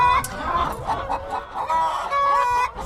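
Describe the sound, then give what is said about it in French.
Hens clucking inside a henhouse with straw bedding, a dense, continuous chorus of overlapping clucks and sharper high squawks from several birds. “Alors, les poules pondent à l'intérieur du poulailler.”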